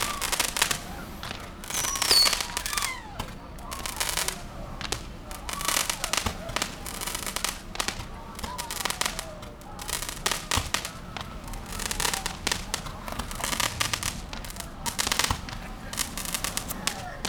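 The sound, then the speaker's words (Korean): Fireworks crackle and pop in a dense, continuous barrage of many sharp bursts, loud and steady throughout with no clear pauses. “어 갑자기 저 불꽃놀이에 홀렸어.”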